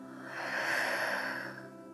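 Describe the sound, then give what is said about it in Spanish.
A single slow exhale out through the mouth during a breathing exercise: a soft, airy breath that swells and then fades away over about a second, quiet and without talk. “Una última vez, inhala. Y por tu boca suelta.”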